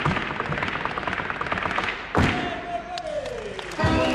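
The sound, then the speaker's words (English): Bolas, rope-tied balls twirled by a performer, crack against a special parquet floor: two heavy thumps stand out over a steady rushing background. “The ropes with the balls at the end are called bolas. Svetlana twirls one in each hand, cracking them against a special parquet floor. We make ton-ton-ton with interesting sound.”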